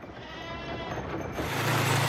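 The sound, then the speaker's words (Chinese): Black goats bleat on a mountain farm through a dense, noisy wash of outdoor sound. Their calls blend into a continuous, rough background that swells slightly louder toward the end. “羊儿们下午一点准时放风，一进山就四散开来。”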